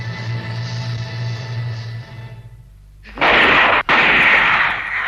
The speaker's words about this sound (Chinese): 枪声，哪来的枪声呢？